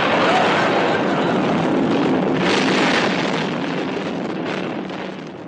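A bomb explodes in a summer house as a radio comedy sound effect: a loud, sustained roaring rumble that holds steady for several seconds and then eases slightly toward the end.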